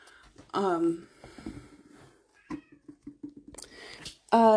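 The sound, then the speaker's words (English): Upset female cat meowing behind a shut door, two loud, drawn-out meows, one near the start and one at the end, with fainter snuffling and scuffing sounds in between. “I don't know if y'all can hear my cat in the background. She's really upset that the door is shut.”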